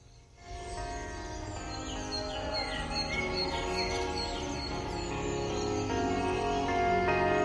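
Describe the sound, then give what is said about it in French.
Sparrow chirps and gull calls are mixed into a loud post-rock track, the short bird chirps scattered over dense sustained guitar layers that continue throughout. “il y avait effectivement donc des moineaux et des mouettes”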